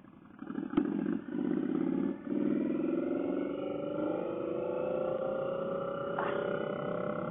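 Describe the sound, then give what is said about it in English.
A Scout motorcycle's engine runs in a steady, moderately loud drone with a rich low rumble. A few brief clicks cut in near the start, and no one talks. “I hope that you guys can hear the difference in sound between my Scout and this Scout.”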